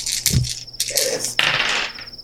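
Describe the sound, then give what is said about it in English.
Dice clatter as they are rolled for a tabletop game: a few quick, sharp rattling impacts that tumble and settle, with a thin high tone sounding alongside. “Why don't we roll some dice then?”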